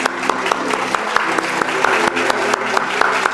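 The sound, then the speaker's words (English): An audience applauds with steady, brisk clapping. Sharper individual claps stand out now and then from the dense wash. “Let's give these folks a hand.”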